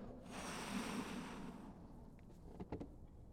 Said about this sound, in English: I was just looking for an excuse to blow into the microphone.